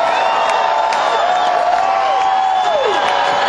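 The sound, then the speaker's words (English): A concert crowd roars as a rock band works it up, a dense, loud, steady wash of cheering with long piercing whistles sliding over the din. “And they're just pumping the crowd up to see how much louder they can make them.”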